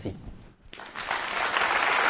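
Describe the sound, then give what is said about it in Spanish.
Applause after the close of a speech: a short voice at the start, then dense, even clapping that swells and holds steady to the end. “y no solo has recibido esos aplausos”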